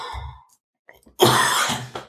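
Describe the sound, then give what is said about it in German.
A person coughs, a loud, rough burst lasting under a second that follows a short vocal sound and a brief silence. “Weil ich muss nochmal husten.”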